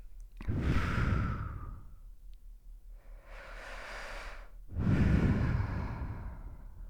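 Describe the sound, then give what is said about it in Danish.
Deep breaths taken during a relaxation exercise with closed eyes: three breath sounds, a strong airy breath, a softer longer one, then another loud breath that trails off, heard alone without speech. “Og så vil du godt tage et par dybe indåndinger.”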